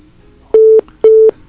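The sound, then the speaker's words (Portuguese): A telephone busy tone follows a dropped phone call: two identical short, steady, mid-pitched beeps with a brief gap between them, loud and alone over a faint hiss. “A gente está com dificuldade em relação à ligação, caiu a ligação do Elielson Lima”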